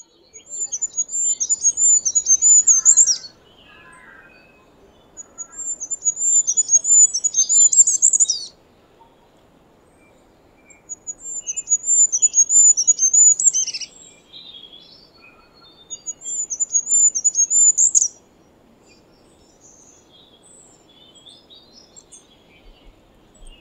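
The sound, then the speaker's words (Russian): A goldcrest sings four high, thin, rapid trilling phrases, each lasting two to three seconds and separated by short pauses, clear against a quiet background. “Королек.”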